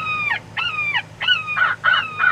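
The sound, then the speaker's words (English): Crow distress calls played back from a machine: a quick series of harsh, raspy caws with strong harmonics, each one sliding slightly downward. The calls come in fairly even bursts, loud and alone. “The Crow Patrol's cache of tools also includes a distress call machine that sounds like this.”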